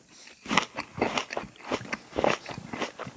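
A person bites and chews a crisp apple, making a rapid, irregular run of many loud, sharp crunches with no talk.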